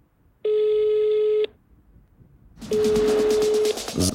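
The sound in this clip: Telephone ringing in two long, buzzy electronic rings of about a second each, separated by a pause. The second ring sits over a hissy, crackling background.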